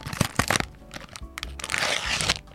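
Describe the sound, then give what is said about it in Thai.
Crinkling and cracking packaging as a box of cold-recipe watermelon-flavoured Pocky is opened, with sharp crackles early on giving way to denser, steady crumpling and tearing, fairly loud and with no talking. “เปิดกล่องก่อนเลย”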